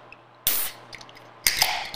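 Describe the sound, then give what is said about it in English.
A can of coffee is cracked open, giving two sharp, airy bursts of hiss about a second apart, each fading quickly, over a quiet background. “We gotta crack and hold one open with the boys.”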